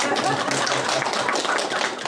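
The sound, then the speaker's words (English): A church audience applauds a guest preacher at a Sunday service. The clapping is dense and steady, with only a slight tapering near the end. “Which side of that equation are we applauding? You're applauding for Barney.”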